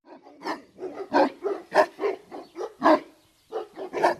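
A guard dog lying in the shade of a yard fence suddenly leaps up and barks, many sharp loud barks in an uneven rhythm with brief gaps between them.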